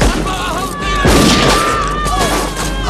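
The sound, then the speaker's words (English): Gunfire in a film scene in which a woman shoots a man: a loud, broad blast hits about a second in over a sustained tonal background that continues, steady and fairly loud, to the end. “Ellen shoots Eugene and he falls to the ground. He gets to his knees, then looks down at his crotch. Ellen shoots him again.”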